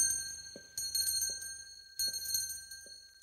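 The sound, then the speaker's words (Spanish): A night watchman's small handbell rings out on his rounds, bright, metallic and sustained, with a few louder strokes breaking through the lingering shimmer. “El sereno sigue su recorrido haciendo sonar la campanilla.”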